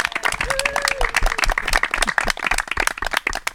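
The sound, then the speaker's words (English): Audience applause welcoming a guest: a dense, steady patter of many hands clapping for several seconds with an uneven, lively rhythm. “Welcome to Roberto. Please give him a warm hand.”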